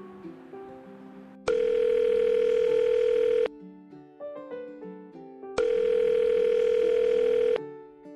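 A telephone call rings out with two long, steady buzzing tones of about two seconds each, separated by a pause filled with softer tonal notes.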